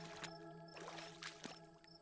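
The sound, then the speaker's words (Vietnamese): Splashing water from vegetables being washed by hand in a pond, a faint, steady run of soft sloshes and trickles at an even, unhurried pace. “Tiếng rửa rau vẫn đều đều, không nhanh cũng không chậm.”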